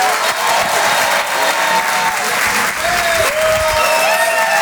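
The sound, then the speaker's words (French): An audience applauds and cheers for a performer at a comedy and song show. Dense, steady clapping fills the whole clip at high volume, with a few whistle-like tones toward the end. “Je vous demande de faire un maximum de bruit, s'il vous plaît, pour Laurie Perret.”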